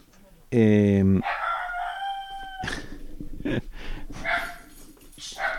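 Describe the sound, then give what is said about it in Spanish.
Sharp barks from a small female dog alerting to someone coming to the house, a few short loud bursts that follow a long, loud rooster crow at the start. “La perrita acaba de descubrir que alguien viene a casa.”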